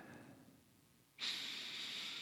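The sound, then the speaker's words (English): Deep breathing during a group grounding exercise: a faint, soft breath followed by a louder, airy, hissing breath that continues to the end, with no talking. “get grounded with some deep breaths. You know, we are all in this together. So everybody stop and breathe.”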